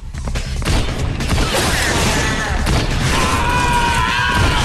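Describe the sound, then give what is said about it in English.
Gunfire and heavy impacts as Blade shoots down vampires in a fight: a loud, dense barrage of blasts and crashes that runs without a break, with ringing tones over the din. “Blade grows tired of scrapping with assailants and starts shooting them down like some virtual arcade game. The ever-popular Abby slugs it out with her fists, while Blade blasts them away.”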